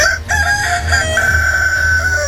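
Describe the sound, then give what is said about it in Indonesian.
A rooster, told of as a magic cockerel, crows with one drawn-out, strained call, held loud and steady for about two seconds over a dense, noisy background, with no talk. “Baiklah, aku akan menghancurkannya dengan ayam jantan saktiku ini.”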